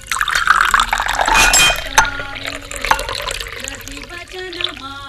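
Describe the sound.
Water poured into a glass to take a pill with: a gurgling pour with a couple of sharp glass clinks, and a tone that rises as the glass fills.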